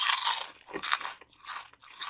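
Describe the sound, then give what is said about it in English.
Crunching on Flamin' Hot pork rinds (chicharrones): several loud, crisp bursts of biting and chewing, separated by brief quiet gaps. “Let's do the chicharrones first.”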